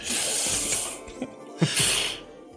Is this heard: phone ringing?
no

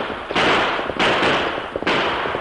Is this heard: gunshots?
yes

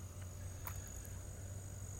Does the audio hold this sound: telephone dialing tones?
no

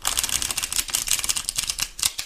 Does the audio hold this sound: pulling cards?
yes

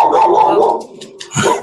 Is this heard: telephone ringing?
no

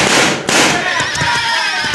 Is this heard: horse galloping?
no

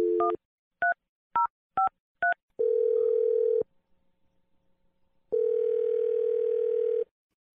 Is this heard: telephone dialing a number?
yes

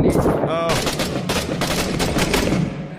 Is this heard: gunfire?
yes

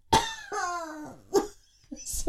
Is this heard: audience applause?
no

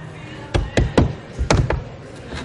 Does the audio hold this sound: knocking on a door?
yes

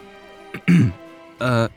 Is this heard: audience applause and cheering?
no

